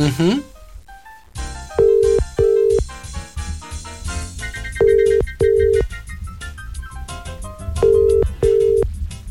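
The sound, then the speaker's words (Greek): An outgoing phone call rings unanswered from a radio show, sounding three evenly spaced double rings of a steady mid-pitched tone over upbeat background music. “Δεν θέλει. Ούτε η Γεωργία το σηκώνει.”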